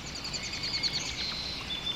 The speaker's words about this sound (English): You close your eyes, listening to the beauty of the birdsong overhead,